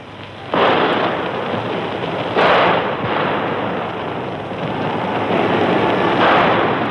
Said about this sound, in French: Les coups de feu crépitent toujours.